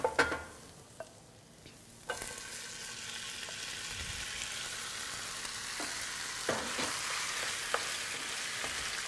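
Serrano peppers and garlic fry in a pan with a steady, broad sizzling hiss, broken by a few soft clicks and knocks from stirring. No voices.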